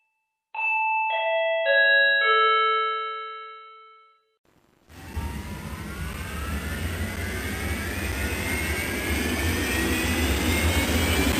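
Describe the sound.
An airplane taking off, used as a sound effect in a comedy skit: a multi-tone announcement chime rings first, then a loud jet roar swells in with a whine that climbs steadily in pitch.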